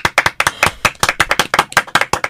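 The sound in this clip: Applause after a song performance comes as many distinct, sharp hand claps in an uneven rhythm, loud and crisp. They sound like a smallish group rather than a dense crowd.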